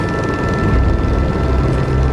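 Loud, continuous rotor roar of a helicopter flying over a flooded river where floodwaters broke through, a dense steady drone with no pauses and no voices.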